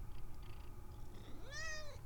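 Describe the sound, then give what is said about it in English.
A female house cat gives a single short meow near the end, rising then falling in pitch. It sounds faint over a steady low background hum. “Yeah, that's such a kitty. So, obviously my cat wants to go outside, or at least wants me to open the door so she can look out the window.”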